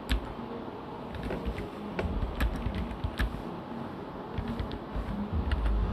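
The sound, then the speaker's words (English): Typing on a computer keyboard: many faint, irregular key clicks tapping over a steady background hiss, with no talking. “I'm gonna make sure I have this typed down already so I can copy paste it.”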